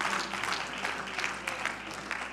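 A church audience claps their hands in dense, sustained applause, fairly loud and steady from start to finish, with no single claps standing apart.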